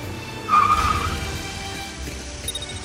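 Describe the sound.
Skidding tires in a car crash: a brief, high squeal cuts over a dense rumbling roar, then the rough vehicle noise carries on at a steady level.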